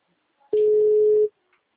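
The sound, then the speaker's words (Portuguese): An outgoing phone call ringing on WhatsApp: a single steady ringback tone lasts under a second and then stops, heard alone. “Eu peguei no WhatsApp, tá chamando agora.”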